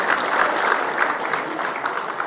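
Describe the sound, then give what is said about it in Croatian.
Applause fills the hall at a Bosanska Krupa city council award ceremony honoring recipients, a loud, dense and steady clapping that continues for the whole moment. “Zahvaljujemo se svim dobitnicima. Možda je hvala vam na aplauzu.”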